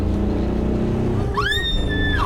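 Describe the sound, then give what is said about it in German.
A car's engine drones steadily as it pulls out to overtake a truck on an open road. Near the end a clear high tone rises and then holds over the engine noise. “Der verdammte Laster nimmt uns unseren schönen Schwung. Wir überholen. Jetzt oder nie.”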